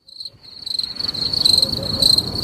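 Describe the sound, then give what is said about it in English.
Crickets chirp in a steady, high-pitched pulsing trill that grows a little louder as it goes on, with a soft low rumble underneath. “the crickets are lovely”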